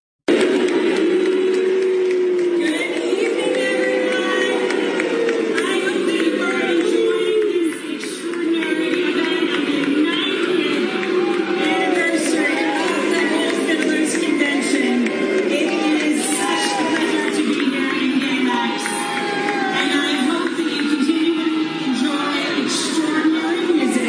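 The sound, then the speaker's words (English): A concert crowd boos and cheers as the governor arrives. A loud, sustained mass of voices mixes jeers with whoops and shouts and carries on without a break for the whole stretch. “You don't get a better audience than the people of your city or your state coming out and you go, the governor's coming. And you get boo or you get yay. And you tell me what the preponderance is as you listen to this clip.”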